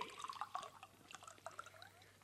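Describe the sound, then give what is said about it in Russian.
Water is poured into a bottle with faint gurgling and bubbly splashes, busier at first and tapering off toward the end. “Так, нальем теперь в бутылку воды.”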